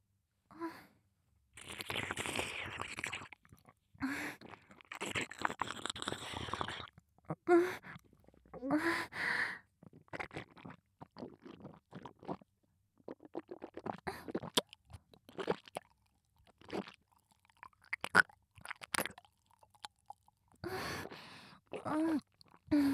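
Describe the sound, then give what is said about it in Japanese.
Close-up chewing and crunching of food, many irregular crisp and wet bursts of biting and mastication with short breathy pauses between them and no talk. “しっかりと近くで聞いていてください。それではいただきます。”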